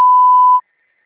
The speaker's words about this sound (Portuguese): sua chamada está sendo encaminhada para a caixa de mensagens e estará sujeita à cobrança após o sinal.